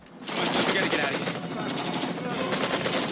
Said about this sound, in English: The U.S. soldiers return fire.